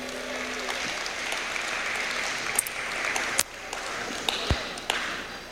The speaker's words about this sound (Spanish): palmas al rey, mis hermanos.